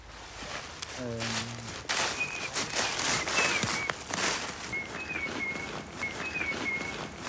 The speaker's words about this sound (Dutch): Kijk, ze fluiten terug. Het is het EEN-fluitje. Heel praktisch als je elkaar kwijt bent in een natuurgebied of in een supermarkt.